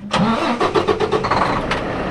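A 75-foot truck's engine starts, cranking with several quick pulses before settling into a loud, steady mid-pitched rumble.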